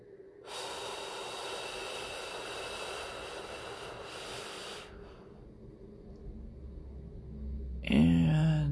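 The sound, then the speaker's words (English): A slow, deep breath drawn in during a guided relaxation, heard as a soft, airy rush held steady for about four seconds, then quiet, with a brief voice starting at the very end. “close your eyes, and let's take a nice deep breath in.”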